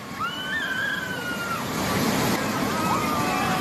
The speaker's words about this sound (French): Une route s'est transformée en torrent déchaîné. C'est ça qu'on entend.